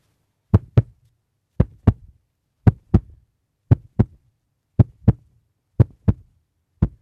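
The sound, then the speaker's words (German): A heart beats in seven slow, regular lub-dub pairs, each a deep, soft double thump followed by a pause. “Das Herzklopfen.”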